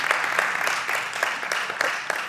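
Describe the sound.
An audience claps during a spoken address, giving a brisk string of distinct claps at a fairly steady beat. The clapping is moderately loud and stands alone without talk.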